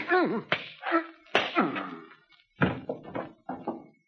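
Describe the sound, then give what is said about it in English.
Bare-fist punches land in a staged fistfight: a few sharp, slapping thwacks cut between grunts and groans from the fighters. “Hollister's on the floor. What did you hit him with? My hands.”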